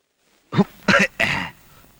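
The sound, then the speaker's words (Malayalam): A person coughing: three harsh, throaty bursts in quick succession, the last longer and trailing off, heard alone with no talk. “ഓ എന്താ ഒരു കണിയാന്റെ ചുമ?”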